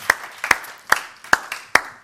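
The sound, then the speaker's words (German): Five sharp, evenly spaced hand claps at a church gathering, each a loud crisp snap with short gaps of quiet between them. “noch ein Lob, drei Applaus.”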